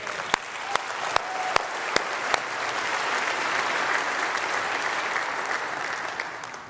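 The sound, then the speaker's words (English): An audience gives a weak golf clap: a few sharp, separate claps open, then a soft, steady patter of applause continues at low level. “I mean, I love you and all, and I don't want to be too critical, but that should give a little bit more than a golf clap.”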